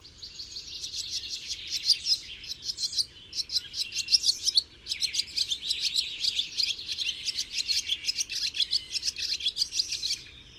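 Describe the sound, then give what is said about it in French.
Barn swallow song: rapid, continuous high-pitched twittering and chirping with a brief break partway through. “L'hirondelle rustique.”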